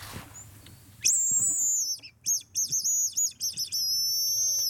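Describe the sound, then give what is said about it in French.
A tit calls in a series of high, thin, piercing notes that begin abruptly, break into several short repeated chirps, then settle into a sustained bright call. “Et oui, c'est la mésange qui nous répond.”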